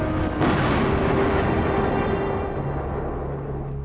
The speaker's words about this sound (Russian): Карета проехала. Взрыв!